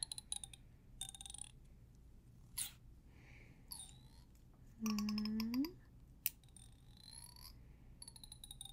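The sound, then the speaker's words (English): Scissors snipping hair during a men's haircut in a barbershop roleplay: a few crisp, quiet snips spaced apart, mixed with soft clicks and brief squeaky handling sounds over a hushed background. “just snip you a little. Snip.”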